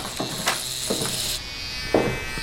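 An electric razor buzzes steadily as it shaves a boy's head for lice, with a few brief, brighter passes as the blade moves across the scalp.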